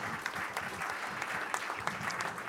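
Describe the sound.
Applause from an audience honoring the participants and winner of a competition at a prize ceremony: dense, steady clapping with sharp individual claps poking through, sustained at even loudness for the whole stretch.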